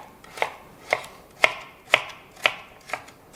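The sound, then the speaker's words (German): Knife chopping carrot, celery and leek on a board: a steady series of crisp, sharp strikes, roughly half a second apart, with no talk. “Währenddessen schneiden wir jetzt das Gemüse, Karotte, Sellerie, Lauch.”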